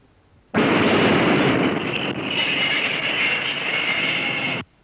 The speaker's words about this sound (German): Und das ist eine U-Bahn.